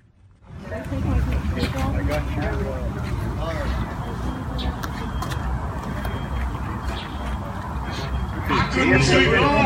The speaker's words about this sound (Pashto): 1928 د کارویټ موټر انجن دی پکې زول دی خو کار کوي